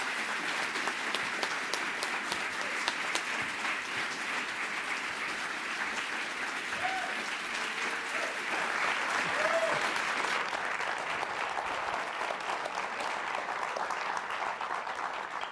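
Warm, sustained applause from an audience welcoming two guests to the stage at an evening book event, a thick, even roar of clapping that holds steady without a break.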